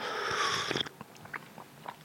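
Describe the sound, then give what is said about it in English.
Slurping a drink through a strawberry cream-filled biscuit: a sustained airy suck, then a few small, faint wet clicks and crunches, with no talk. “Take another slurp. Oh, and that's working. That is working, baby. That is working, an absolute treat. And finally, a third slurp.”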